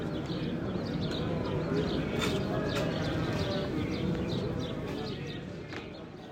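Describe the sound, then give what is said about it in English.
Early morning ambience at a holy wall in Jerusalem: bird chirps and pigeon coos scattered over a dense, steady murmur that includes voices, holding level throughout before easing slightly at the end. “The sound you just heard was recorded early this morning at the Western Wall, the most holy place in the world for the Jewish people.”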